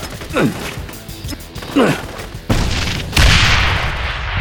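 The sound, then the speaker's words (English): Two hand grenades explode in quick succession, each a loud booming blast with a long rumbling, hissing tail, preceded by short thuds and scrapes. “Your hand grenade seems to have made an impression on them. Maybe another one will discourage them from rushing the building. Let's see what two will do.”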